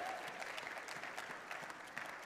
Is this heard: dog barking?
no